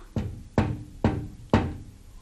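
Four knocks on a window, crisp hollow raps evenly spaced about half a second apart at moderate volume.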